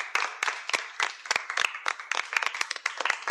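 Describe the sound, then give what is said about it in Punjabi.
Applause from an audience at a school event after a child recites a patriotic poem: many sharp hand claps in an irregular, overlapping patter, fairly quiet overall. “ਜੀ ਸ਼ਾਬਾਸ਼, ਜ਼ੋਰਦਾਰ ਤਾੜੀਆਂ।”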